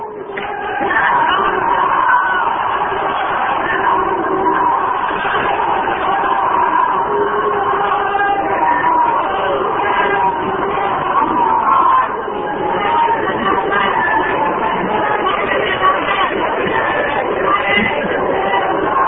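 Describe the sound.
A seated crowd at an Islamic religious speech gathering chants loudly. Many voices merge into a sustained, loud roar of shouted slogans that lasts nearly 20 seconds.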